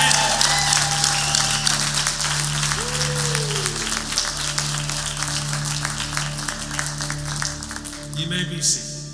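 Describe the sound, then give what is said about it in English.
A church audience applauds to welcome a guest speaker: dense, continuous clapping that holds steady for the whole stretch, with a voice speaking over it. “Well, church, would you join me in welcoming today our guest speaker, Pastor Edgar Lee. Come on, give him a hand.”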